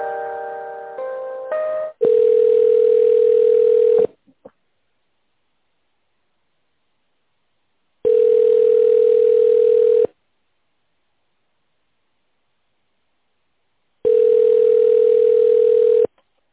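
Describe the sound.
Telephone ringback tone as an office call is transferred: a brief cluster of dialing tones, then three steady mid-pitched tones, each about two seconds long, separated by long silences.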